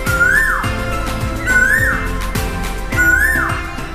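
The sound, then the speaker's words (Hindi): A male Asian koel gives a rising, whistled call three times at steady intervals of about one and a half seconds. The clear, sweet notes sit over dense background music. “आपने बहुत बार सुना होगा कि कोयल गा रही है, लेकिन कोयल गाती नहीं, गाता है।”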